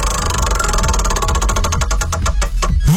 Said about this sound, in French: Écoute, on va tourner la roue, on va voir ce qui va te tomber dessus.